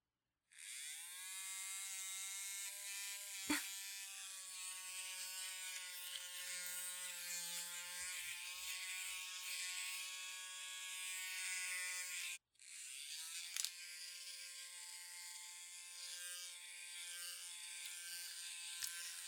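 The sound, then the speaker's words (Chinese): An electric razor is switched on for shaving body hair, giving a steady high-pitched buzzing drone. It cuts out briefly midway and starts again, faint and with no voices. “我要帮你把鸡巴毛给剃掉，我要启动开关了。”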